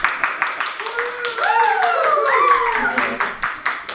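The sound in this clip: An applause sound effect from a soundboard: rhythmic hand claps run throughout, while a whooping, cheer-like tone sweeps up and down in the middle.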